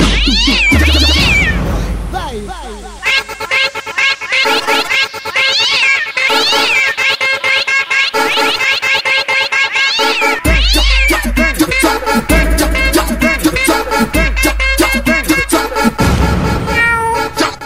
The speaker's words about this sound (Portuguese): A história do meu gato que mia a todo instante. Ele mia lá na cama, ele mia no sofá.